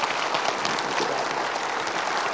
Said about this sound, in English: And I want you to clap.